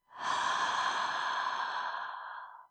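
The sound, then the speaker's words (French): A deep breath drawn in during a guided relaxation exercise: one long, soft, breathy hiss that swells quickly and holds for over two seconds before tapering off, heard alone with no talk. “c'est le temps de prendre une bonne inspiration”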